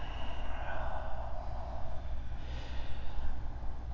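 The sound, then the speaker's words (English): Slow, deep breathing in a yoga practice, with long airy inhales and exhales as soft breathy rushes over a steady low hum. “And begin to lengthen and deepen your breath here.”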